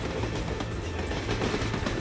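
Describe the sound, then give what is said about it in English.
Train running on rails in Germany, heard as an even, continuous rumble and rushing noise with a low hum underneath, holding steady throughout without clear individual clacks. “So he's on a train in Germany”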